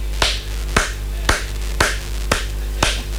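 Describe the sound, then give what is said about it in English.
Six sharp single hand claps at a steady, even pace. Each is a crisp, bright smack over a constant low hum. “I am clapping for Pep Guardiola.”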